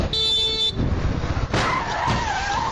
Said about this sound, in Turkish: Bir motosiklet sürücüsünün kask kamerasına yansıyan görüntülerde yeşil ışıkta ilerleyen otomobile kırmızı ışık ihlali yapan araç yandan çarptı.